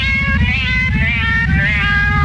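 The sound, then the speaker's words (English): A cat meows in loud, drawn-out, high wavering calls that repeat over a continuous low pulsing background. “The universal search for the cat with the galactic meow.”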